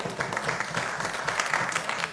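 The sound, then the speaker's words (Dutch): Applause at a municipal council meeting as members approve extending a council member's term, a brief run of steady, even clapping at moderate level. “Moet per stembriefje, maar ook hier mag u dat afdoen met een applaus wat mij betreft.”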